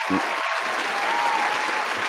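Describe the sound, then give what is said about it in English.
Brief burst of applause: dense, steady clapping from a group that fills the whole moment without letting up. “Round of applause for that, man.”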